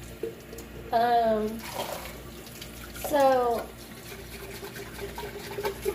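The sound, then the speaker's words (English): A tap runs steadily while someone washes up, a continuous soft hiss heard throughout, with two short voiced sounds rising above it. “Sorry, I'm making a mess. I have to wash more.”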